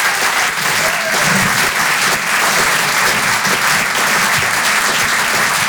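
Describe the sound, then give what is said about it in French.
Loud applause from a comedy club audience welcoming a comedian to the stage: a thick, unbroken wash of many clapping hands that stays at full strength for several seconds. “Faites du bruit s'il vous plaît pour David Azencot.”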